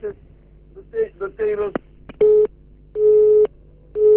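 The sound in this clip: A busy tone on a listener's call to a radio station that has just dropped. Garbled line noise and short broken tones give way to a steady, evenly spaced beeping, three loud pulses with the last one cut off.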